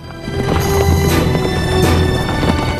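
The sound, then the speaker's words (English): Horses gallop across dusty plains as a gang of six riders moves at speed, rapid rumbling hoofbeats running continuously and loud throughout. “The Bucklin Rangers trail behind Billy and Floyd as they gallop across the dusty plains on horseback.”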